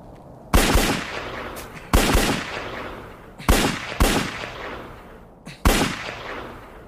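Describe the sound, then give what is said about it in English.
Pistol shots fired during firing practice: several sharp, loud reports at irregular intervals, each followed by a short ringing decay. “Pointing the gun but not aiming it. Fire off one magazine, 2 shots at a time.”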